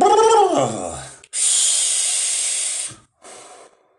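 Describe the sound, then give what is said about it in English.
Inhaling and exhaling from a vape: after a short stretch of a man talking, a long, loud, airy hiss is followed by a brief gap and then a shorter, softer breathy puff. “Okay, let me breathe here. Let me take a vape.”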